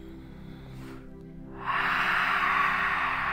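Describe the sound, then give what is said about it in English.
A deep, breathy rush of air during a guided relaxation breathing exercise. It swells suddenly partway through and holds as a steady, airy hiss over low sustained background tones. “Let's take a deep breath in, a deep breath out, and feel our body relax more and more.”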